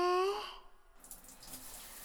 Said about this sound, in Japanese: 今度は泡を流すっすから、浴槽から出てほしいっす。はい、じゃあ頭から流していくっすね。